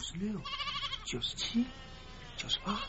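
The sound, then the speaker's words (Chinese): Lambs bleat a few times, short and quiet wavering cries, with other faint sounds around them. “阿山急忙招呼着小羊准备回家”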